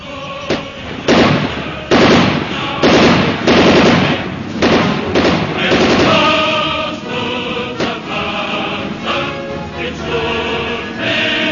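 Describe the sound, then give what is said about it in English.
Rapid gunfire erupts in a dramatized police standoff with an armed man, a burst of sharp, loud cracks clustered in the first half, then the shots thin out and fade under a lingering tonal wash. “Stop or we'll shoot. You can't stop me now. He's firing. Let him have it.”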